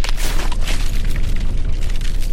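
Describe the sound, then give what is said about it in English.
Volcanic eruption explosion as built-up gas bursts out of the magma, a loud, continuous booming roar with heavy low rumble and gritty, crackling surges throughout, without a single distinct blast. “you have all these bubbles forming within it, and it gets to a point where all of that explodes.”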